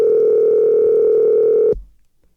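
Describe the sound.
A steady telephone dial tone sounds while a call is being placed, holding one loud, unchanging pitch for under two seconds before it cuts off abruptly into near silence.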